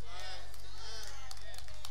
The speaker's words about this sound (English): Oh, I'm only going to get some tepid claps.